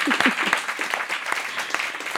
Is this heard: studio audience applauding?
yes